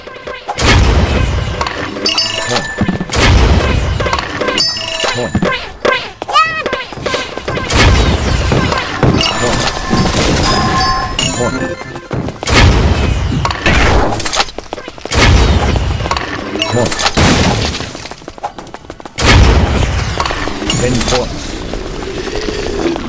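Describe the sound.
Loud blasts of a rocket launcher firing in a video game, many sharp explosive booms in rapid bursts separated by brief gaps.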